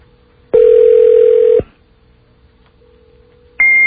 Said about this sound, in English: That's the sound of it ringing.